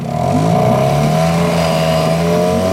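A car engine revving, a loud, continuous drone with strong steady harmonics that hold their level and drift slightly upward in pitch throughout.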